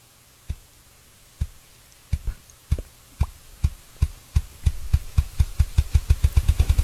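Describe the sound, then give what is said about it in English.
A ruffed grouse drums: low, muffled thumps start slow and widely spaced, then speed up steadily into a rapid, fluttering roll. “But ruffed grouse drumming, that's something that usually peaks right about now, especially up north. One more time for you.”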